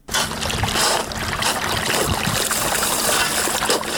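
Irrigation water, raised from underground by a solar-powered pump, rushes steadily onto a farm field, a continuous broad splashing and trickling wash with no break.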